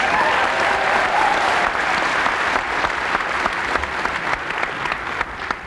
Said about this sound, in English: Let's make him welcome while he says, give him a hand.